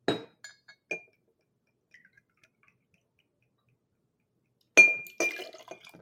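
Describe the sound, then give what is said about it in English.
Glass clinks and liquid sounds from a mixing glass as liquor is poured for a stirred cocktail: a few sharp clinks at the start, a quiet pause, then a louder burst of clinking and trickling near the end. “You can hear me pouring that into the mixing glass. So this is going to be stirred, not shaken.”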